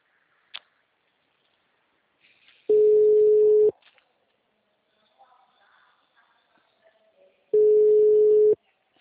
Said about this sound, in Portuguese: Tô sem retorno nenhum na ligação. Só chama essa jossa.